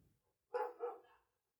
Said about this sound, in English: I think I heard a dog. Yeah, that was a dog.